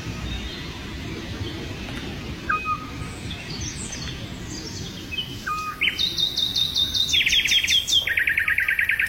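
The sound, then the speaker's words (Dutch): A Eurasian scops owl in southern France gives a few short, soft whistled notes, with higher chirps from other birds and a steady low rumble underneath. “hoort ter hoogte van Cardet in Zuid-Frankrijk het hypnotiserende geluid van de dwergooruil”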